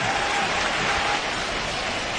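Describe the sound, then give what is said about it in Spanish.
A football stadium crowd applauds and cheers as coach Simeone calls Fernando Torres on as a substitute. Dense, steady clapping and roaring fills the whole clip at an even level. “Mira la reacción del público.”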